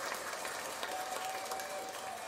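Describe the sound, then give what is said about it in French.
Crowd applause celebrates Rey Mysterio at a WWE SmackDown event, with dense, steady clapping throughout and no clear break. “Alors, bonne main d'applaudissements et de célébration. Ouais, c'est un peu trop. Euh, ouais, bravo. Bravo à Rey Mysterio”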